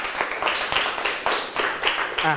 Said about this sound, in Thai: ปรบมือให้ตัวเองหน่อยตอบถูกหมดทุกข้อเลย